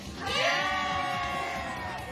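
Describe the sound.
A studio audience cheers at the opening of a youth talk show. Shouts and whoops swell in the first half-second, then carry on at a steady, moderate level.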